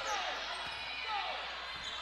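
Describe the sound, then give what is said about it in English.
Basketball dribbled during a game, its bounces faint under a steady roar of crowd noise and a commentator's voice. “He dribbles a little more to the left wing, pulls up for the three-pointer”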